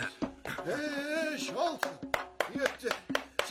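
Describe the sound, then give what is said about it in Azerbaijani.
A person claps their hands several times after a stretch of speech, giving sharp, irregular slaps that start and stop unevenly. “Bacardığın qədər onu alqışla. Mütləq. Dur burada tamaşa elə gör. Necə alqışlayıram onu.”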